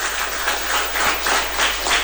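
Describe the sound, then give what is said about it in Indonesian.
An audience gives warm applause at an education talk show on curriculum, a thick, continuous patter of many hands that swells in gentle waves throughout. “Tepuk tangan yang meriah.”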